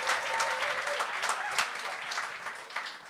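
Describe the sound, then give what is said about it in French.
Audience applause for a guest on a comedy show: a lively, uneven patter of many hands with several brief surges in loudness, fairly quiet overall and with no speech. “On peut applaudir Gilles Picotte. Gilles Picotte, mesdames, messieurs. Félicitations. Bravo.”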